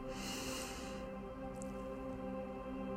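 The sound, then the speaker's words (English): A brief breath drawn in, heard as a bright, sniffing hiss lasting about a second, over a soft steady tonal drone that continues after it ends. “so that you can listen to the Spirit of God and breathe in”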